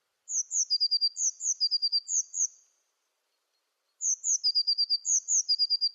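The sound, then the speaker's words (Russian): A Eurasian blue tit sings in two bursts of high, thin repeated notes and short trills, separated by a few seconds of silence, with no other sound. “А вот так поет лазоревка.”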